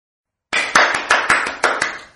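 Hand clapping as a sound effect: several sharp, evenly paced claps after a moment of silence, loud and alone with no voices.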